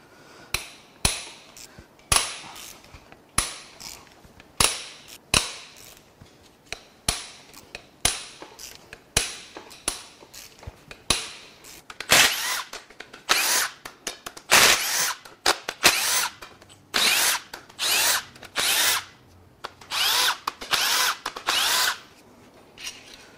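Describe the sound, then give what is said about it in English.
Power tool rattling as control shaft caps are unbolted, many short, sharp whirring bursts in an irregular rhythm, growing longer and denser toward the end. “All right, now we're going to unbolt the control shaft caps.”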